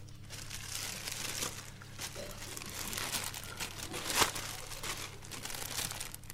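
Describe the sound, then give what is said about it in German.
A plastic bag crinkles as it is pulled over, a faint, continuous dry rustling with one sharper crackle partway through. “Ziehen Sie die Plastiktüte über...”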